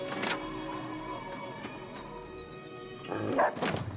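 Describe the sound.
A dog barks in a video game saloon. Faint, short barks come at the start and again near the end over a steady background of soft sustained tones.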